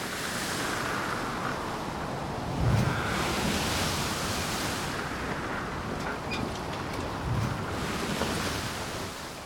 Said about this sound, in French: La mer à présent est calme, unie, protégée par la longue bande de roches et de terre qui forme le cap d'Antibes.